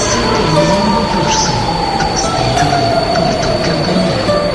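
Train sound effect for an Intercidades train in a Portuguese radio jingle: a loud, continuous rumbling roar of rolling railcars with high squealing wheels and a faint clickety-clack running throughout.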